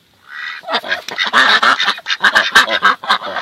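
A male fowl calls alone in a long, loud run of raspy, nasal honking notes, many rapid bursts in close succession with no talk over them.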